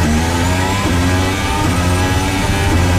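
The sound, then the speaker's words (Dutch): Onboard engine sound of Charles Leclerc's Ferrari Formula 1 car at the 2023 Monaco Grand Prix: a loud, continuous, high-revving engine note that fills the whole stretch. “Onboordgeluiden komen van Charles Leclerc zijn Ferrari.”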